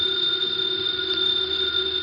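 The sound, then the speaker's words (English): A house telephone rings with a steady, unbroken electronic trill made of several high, bright pitches layered together. It sounds loud and alone for its whole two seconds, with no talk over it. “The phone is ringing. Let it ring.”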